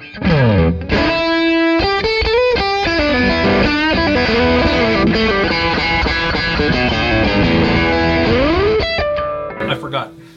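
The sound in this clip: Distorted electric guitar through a Pinnacle distortion pedal plays a loud, unbroken riff of bending and sliding notes and chords that fades out near the end.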